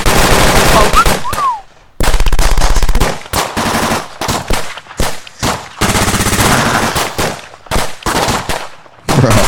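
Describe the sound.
Rapid automatic gunfire from a video game, loud and repeated in many dense bursts separated by brief gaps.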